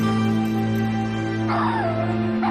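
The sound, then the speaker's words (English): Dogs whimper in kennel cages: a high whine slides downward over a steady droning tone, and a second short whine comes at the end. “They look into various cage dogs. Several of the dogs whimper as they pass.”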